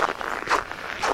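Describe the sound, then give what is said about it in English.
Footsteps on a short partial-lap walk on a January morning, steady and evenly paced at roughly two per second, each a crunchy scuff with faint rustling between. “This is going to be a short walk because I have to be back at my desk by 9, so I'm doing just a partial lap.”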